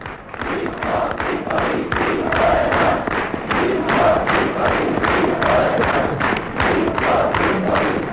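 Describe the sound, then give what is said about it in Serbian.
A large crowd applauds frenetically and chants for Tito at the joint congress of SKOJ and the People's Youth in December 1948. Loud, rhythmic clapping and shouting hold a steady beat throughout. “Uz frenetičan aplauz i skandiranje, drug Tito se obratio prisutnima na zajedničkom kongresu SKOJ-a i Narodne omladine.”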